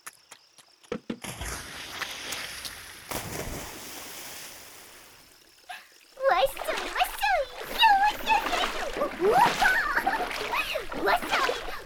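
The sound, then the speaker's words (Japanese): Hot bath water splashes in a tub as water is playfully thrown back and forth, with irregular sloshing bursts that grow busier and louder in the second half, and vocal sounds mixed in. “湯船に戻ってまたわらわとお湯の掛け合いじゃ。”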